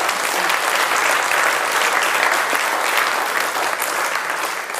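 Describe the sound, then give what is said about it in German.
Loud, dense audience applause at a religious gathering after a prayer, many hands clapping in a continuous even roar that holds steady throughout, with no talking over it. “Darfst du gerne applaudieren.”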